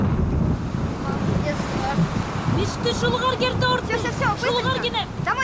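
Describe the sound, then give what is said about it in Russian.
Strong wind rising in a dry thunderstorm, a steady roaring rush of gusty noise that continues throughout, with speech over the later part. “Сухая гроза – плохой знак. Поднимается сильный ветер.”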